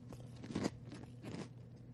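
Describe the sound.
Crunchy biting and chewing on broccoli: two louder crunching bites stand out over a steady, low mashing noise, with no talk.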